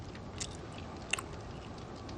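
Faint chewing as someone eats tsampa, a low steady mouth noise broken by a couple of brief, sharp crunchy clicks.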